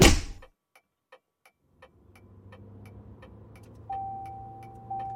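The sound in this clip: A car driving off: a thud, then steady, regular ticking, with a low engine rumble building quietly underneath and a sustained electronic tone sounding near the end.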